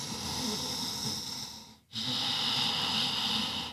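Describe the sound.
Deep breathing in and out, done as a calming exercise while standing with hands behind the back. One long, airy breath, a brief silent pause, then a second long breath. The sound is soft and steady, with no other sounds.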